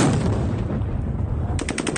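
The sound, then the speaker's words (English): Gunshots and stun grenades are fired by troops to disperse a protest crowd: a loud, dense barrage of bangs and rumble, ending in a rapid run of sharp, repeated cracks. “Russian troops fired stun grenades and gunshots to try and disperse the crowd, injuring some”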